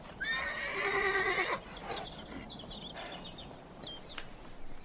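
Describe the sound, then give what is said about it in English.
A horse gives a loud, shaky whinny lasting over a second, followed by softer, quieter sounds with a few high bird chirps over faint background noise. “Ginger trotted anxiously along by the hedge, calling to me as long as she could hear the sound of my hooves”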